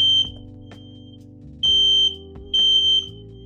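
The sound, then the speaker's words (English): A fire alarm goes off in repeated shrill, high-pitched beeps, each about half a second long, separated by short pauses over a low steady hum. “excuse that fire alarm. My bad.”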